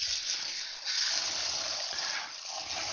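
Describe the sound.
Water sloshing inside a can of black beans as they are shaken and rinsed while cooking: a faint, continuous hissy swish lasting about three seconds.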